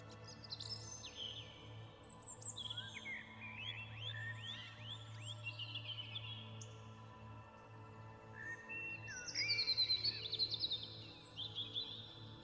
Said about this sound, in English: And in this peace, you can hear the birds singing their sacred song, welcoming you back home.